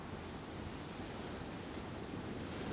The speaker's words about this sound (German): Sie hören dem Brausen des Meeres zu, welches anfängt zu steigen.